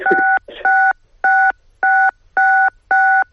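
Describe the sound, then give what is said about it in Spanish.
Telephone keypad tones sound as keys are pressed during a phone call: six steady, equal-pitched beeps in an even rhythm, each about a quarter second long, with a brief scrape of noise after the first. “escuchamos con cierta dificultad, como si estuviera marcando teclas, a ver si puede tomar un poco de distancia con el teléfono.”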